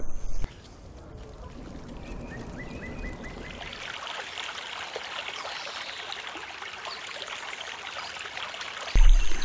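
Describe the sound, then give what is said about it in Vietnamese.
Water splashing and trickling as a boat is paddled on a lake, a steady flowing wash that swells slightly and ends with a louder burst. “nhưng bây giờ tôi thực sự đang chèo thuyền ở phía trên nơi chúng tôi từng làm việc.”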